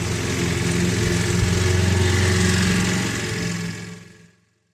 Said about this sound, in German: Und scheiße nochmal muss der Nachbar wirklich jetzt Rasen mähen, wenn ich hier Podcast aufnehmen will.